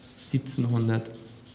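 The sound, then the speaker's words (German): Writing the year 1793 in larger figures, with short scratchy strokes in a quick uneven rhythm alongside a brief voice. “Ich soll ein bisschen größer schreiben.”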